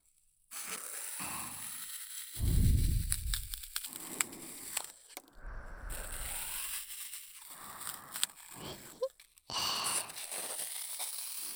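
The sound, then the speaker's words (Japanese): A knife slicing into floral foam: a series of crisp, gritty crunching and scraping strokes of uneven length, one loud low crunch among them, with short pauses between cuts and no talking. “さあ、最初はナイフでサクサク切るぞ。フローラルフォームの可能性に酔いしれろ。”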